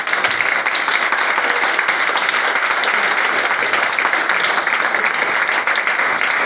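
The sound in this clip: Audience applause welcoming speakers to an evening event, a dense, steady wash of clapping that holds at an even level throughout.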